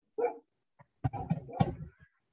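Dog barking, a short burst followed by a faint brief yelp and then a longer run of several loud, rapid barks, with no talk.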